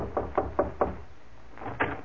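Knuckles rap on a door: four quick, even knocks, a short pause, then two more, the first of those softer. The knocks are solid and dull, with no voices.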